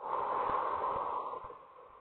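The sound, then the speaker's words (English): Slow labor-practice breathing, drawn in through the nose and let out through the mouth, makes a soft, faint airy hiss that fades toward the end. “So it's in through your nose, out through your mouth,”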